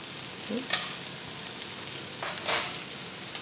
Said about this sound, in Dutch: Roer ik er even door. Dan gaat zo meteen de kaas bij.